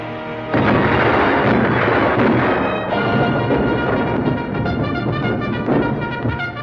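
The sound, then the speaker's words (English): Guns open fire on a target in a film battle scene: a loud, dense barrage of booms and rumbling bursts in after half a second and rolls on continuously to the end. “Direct fire on target. Aye, aye. Commence firing. Fire!”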